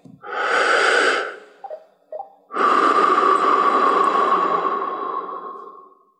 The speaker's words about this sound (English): Now keep your hands relaxed on your knees and slowly inhale and exhale like this.